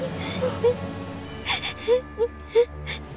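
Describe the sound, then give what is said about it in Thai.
A frightened child starts to cry, with breathy gasps and short whimpering sobs arriving in an uneven rhythm. The sounds are fairly faint and separated by brief pauses. “เด็กนี่เริ่มร้องไห้แสดงว่าเริ่มหายตกใจแล้ว”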